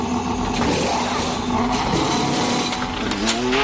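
A Formula 1 race car accelerating at high speed: a loud, continuous engine whine that holds steady and climbs slightly near the end, with no clear break at the gear shifts.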